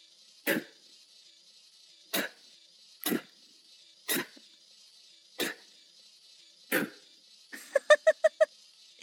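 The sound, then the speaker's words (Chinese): Spitting sounds from a person, six short sharp bursts spaced about a second apart, then a quick run of shorter, more tonal pulses at the end, with no talk. “主人我现在要对着你的狗脸，你的狗嘴里吐口水”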